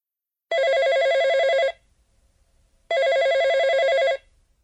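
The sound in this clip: A telephone rings twice before a call to a design office is answered, each ring a loud electronic trill lasting just over a second, separated by a short pause of near silence.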